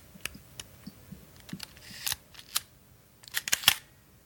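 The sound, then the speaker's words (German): Sharp mechanical clicks from a Leica R6.2 camera, a model with mechanically controlled shutter speeds, come in a faint series of many short snaps and ticks with no talk. “Gegenstand des Geräuschrätsels ist diesmal eine Leica R6.2.”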